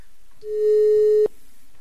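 Telephone busy signal on an international call: one steady, mid-pitched tone that holds for under a second and then cuts off sharply, leaving quiet line noise. No one speaks.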